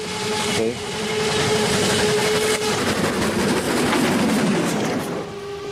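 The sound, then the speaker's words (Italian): A train passes on rails with a heavy, steady rumble and rolling clatter that holds at a loud level for several seconds before easing slightly at the end. “Era un treno.”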